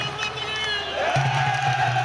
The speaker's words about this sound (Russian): Через 2 часа такого стояния начинается традиционная церемония православных арабов. Они кричат и бьют в барабаны.